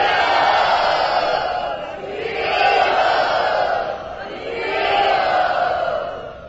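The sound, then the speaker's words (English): A crowd in Bombay loudly chants Hari Bol in three long swelling waves, welcoming and blessing visiting parents. Many voices rise together, ease off slightly and surge again. “Everyone, please welcome my mother and father to Bombay and give them your blessings by loudly chanting Hari Bol.”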